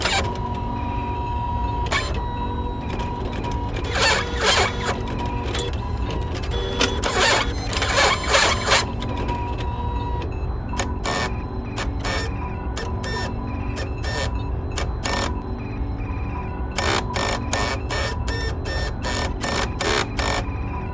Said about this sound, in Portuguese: Senhores, finalizei o escaneamento. Estou imprimindo um relatório.